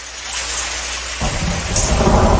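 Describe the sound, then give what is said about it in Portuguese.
Heavy rain pours with thunder, a dense continuous hiss joined about halfway through by a deep, loud rumble that carries on to the end. “se tá chovendo grosso, se não tá chovendo, será que tá chovendo grosso lá, gente?”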